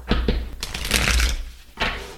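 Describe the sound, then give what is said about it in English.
Tarot cards are handled as one is pulled from a deck: brisk papery flicks and slides, a couple of quick taps, a longer rustling stretch and a final swipe, with no talk. “before I start, I'm going to pull a card.”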